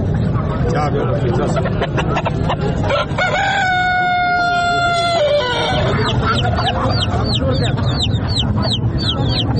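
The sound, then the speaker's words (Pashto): Chickens and other birds at a twice-weekly Friday poultry market in Tarinkot: a loud, drawn-out rooster crow rises over constant clucking, then quick high chirps from smaller birds, with a busy background of voices. “د کورنۍ چرګانو، کلیوالو او وحشي مرغانو د ژغونه په ترینکوټ ښار کې له جمعه بازار یا ګنج څخه پورته کیږي”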